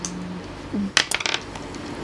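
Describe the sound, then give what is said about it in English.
Dice rolling and clattering on a table during a tabletop role-playing game, a burst of bright, hard clicks and rattles about halfway through, with quiet moments before and after. “So roll plus technical. Come on, dice.”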